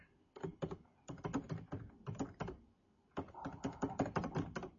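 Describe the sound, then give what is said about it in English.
Quiet typing on a computer keyboard while something is written down: rapid keystrokes in three bursts separated by brief pauses. “I'm just writing that down.”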